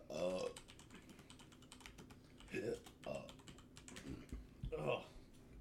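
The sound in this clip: Someone types on a computer keyboard in steady, quick clicks while people talk over it at intervals.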